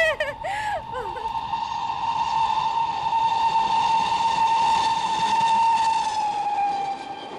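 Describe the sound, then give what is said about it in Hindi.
A train whistle sounds as a train enters a tunnel: a long, steady, high steam-style whistle that holds for several seconds over a constant hiss, then tails off at the end. “देखो लो, train बोगदा में प्रवेश कर चुकी है।”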